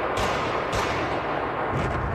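Gunfire during the attack on the Crocus City Hall concert venue near Moscow: a few sharp, dull bursts rise out of a continuous rough roar of noise.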